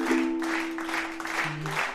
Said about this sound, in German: Ach, ein rhythmisches Klatschen. Von 5 Leuten.